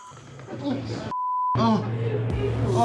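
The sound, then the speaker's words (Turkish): A phone gives a single steady electronic beep while someone calls the police. The tone holds briefly between stretches of talking. “Şimdi polisi arayacağım. Arıyorum.”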